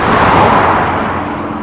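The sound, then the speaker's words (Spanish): A Simca 1200 car speeds along at full power, giving a loud, steady rushing engine roar that eases only slightly toward the end. No voices are heard. “El Sinca 1200, dando todo de sí, llegó a la finca.”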